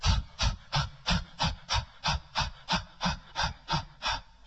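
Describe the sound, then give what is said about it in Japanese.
Rhythmic panting from a breathing exercise: the belly is pushed out to inhale and pulled in to exhale, with a short voiced 'ha' on each exhale. Many evenly spaced, breathy puffs follow one another in a steady, quick pulse. “膨らまして吸って、へこまして吐く。そして吐くときにハッハッハッってやりますよね。それをやっていきますね。”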